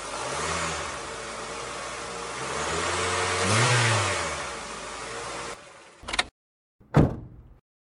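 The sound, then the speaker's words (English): A car engine with a suspected bad belt revs in a garage, a steady mid-pitched roar that swells to a peak and eases back before cutting off abruptly; no one speaks. “Sure, I can pull it into the garage. Like, it sounds so bad. Rev it up.”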